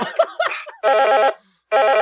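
A phone ringtone in an improvised comedy scene: a few short, drum-like beats, then two loud sustained ringing bursts separated by a brief silence.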